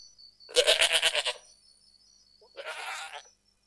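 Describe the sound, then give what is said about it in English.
Goat bleating in two calls, the first long, loud and wavering, the second shorter and softer after a pause, with a faint steady tone running underneath. “Kambing. Kambing. Goat. Goat.”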